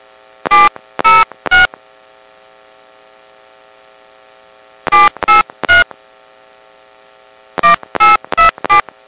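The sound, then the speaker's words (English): Touch-tone keypad beeps enter a prepaid card number during a phone call. Ten short tones come in three quick bursts of three, three and four, separated by pauses, over a steady low line hum. “Welcome to Sprint Prepaid. Please enter your prepaid card number.”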